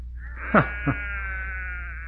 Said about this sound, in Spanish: mirando los corderos recién nacidos.